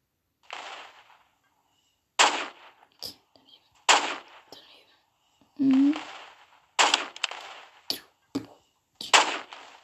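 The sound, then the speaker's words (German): Sniper rifle gunshots from the video game Roblox: a few sharp, cracking shots with quick decays, spaced irregularly and separated by short pauses and brief quiet speech. “Boom. Volltreffer. Also ich glaube, ich bin hier der beste Scharfschütze.”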